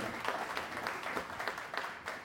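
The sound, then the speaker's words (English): At a networking event, a small audience gives faint, quiet applause. Separate claps are scattered unevenly over about two seconds. “y'all please give Ashley one more round of applause.”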